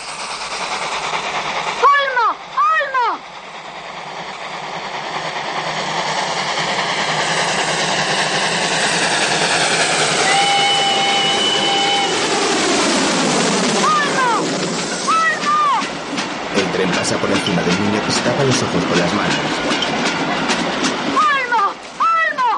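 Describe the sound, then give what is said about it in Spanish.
Loud rumbling roar of a train passing overhead of people lying on the railway track, building to a sustained heavy rush with sharp metallic squeals near the start and again near the end. “Cuando el tren nos pase por encima, cierra los ojos o te quedarás ciego.”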